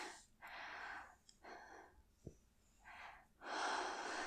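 Heavy panting from a person out of breath, a few rasping breaths in and out with short pauses between them.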